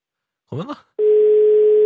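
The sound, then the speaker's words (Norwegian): A telephone ringing tone sounds on an outgoing call. A short voice sound comes first, then a steady, mid-pitched tone begins and holds unbroken and loud until the end. “Ja, det ringer.”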